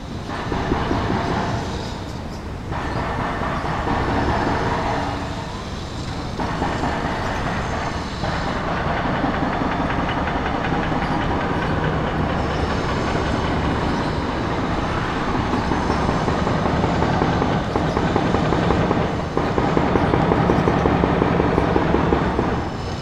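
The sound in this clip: Foundry soundscape from Fundiciones MAM: a dense, loud and continuous roar of heavy machinery with steady rattling and clanking. It holds nearly constant throughout, with no voices.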